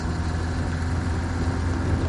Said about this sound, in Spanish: Jesús viaja en el asiento trasero del coche. Pedro conduce.